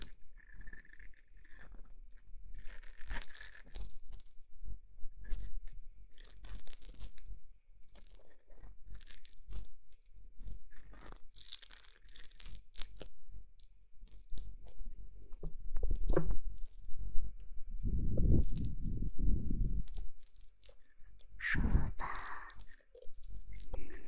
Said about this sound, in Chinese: 我把它称之为碳酸掏耳，试一下。